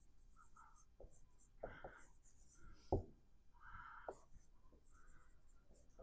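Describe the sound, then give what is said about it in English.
Handwriting with a pen makes faint, scratchy strokes: a series of short scrapes and light taps at an irregular pace, quiet throughout. “It's a type of bank, well, let me write commercial banks here.”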